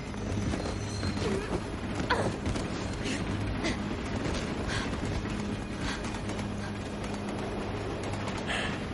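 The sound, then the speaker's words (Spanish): A moving train gives a continuous, steady rumble and rattle as it passes through a ruined city area, with faint intermittent clatters over the dense noise. “El tren avanza por una zona derruida de la ciudad.”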